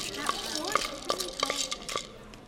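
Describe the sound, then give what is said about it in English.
Stirring food with a utensil: a few light scraping clinks and taps repeat in a loose, uneven rhythm at moderate loudness. “Okay, I'm gonna stir it up.”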